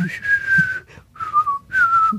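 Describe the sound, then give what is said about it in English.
Whistling of a 1966 spaghetti western theme tune, with three long, clear, sustained notes. Each note drifts slightly downward, and short pauses separate the notes. “It made whistling iconic for dramatic film showdowns. You could try whistling that.”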